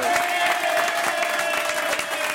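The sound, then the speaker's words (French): Studio audience applause for a singer being welcomed onto a television show, a thick, constant patter of many clapping hands at even loudness throughout. “Applaudissements pour Jeanne Mas.”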